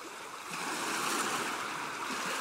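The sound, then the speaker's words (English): Ocean waves wash over a beach as a soft, steady rushing hiss that swells after the opening moment and then holds, faint and with no voices. “Imagine you're on a beach and you hear the waves and they're hitting your feet.”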